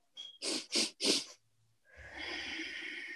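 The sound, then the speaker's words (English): Bunny breathing, a breathing exercise taught to students: three quick, sharp inhales in a tight rhythm, a short pause, then one long, steady, breathy exhale that lasts noticeably longer than the inhales. “maybe we're doing like bunny breathing. So like, okay, this is what I've taught my students. So three quick breaths in and then a long breath out.”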